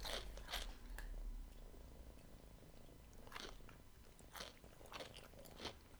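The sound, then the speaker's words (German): Spicy potato chips being bitten and chewed make a series of faint, crisp crunching bursts in an irregular rhythm, with quiet pauses between the bites. “Willst du ein Stück Kartoffelchip, ehrlich? Das sind aber die scharfen, ne? Probier das mal.”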